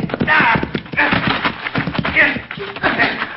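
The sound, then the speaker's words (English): Galloping horse hooves in a western chase, a rapid, loud clip-clop running steadily throughout beneath shouting voices. “Pull up your horse”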